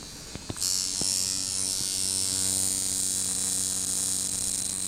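A tattoo machine whose needle moves 70 to 100 times a second: a few soft clicks, then a steady, high-pitched electric buzz that starts abruptly and holds constant.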